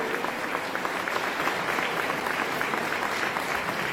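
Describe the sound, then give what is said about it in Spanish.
Sustained audience applause at a public event, a dense, even wash of many hands clapping at steady loudness from start to finish. “Ese fuerte aplauso para todos”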